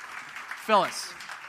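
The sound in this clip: Audience applause welcoming a guest leader on stage at a church comes as a steady, moderate wash of clapping with a voice speaking over it.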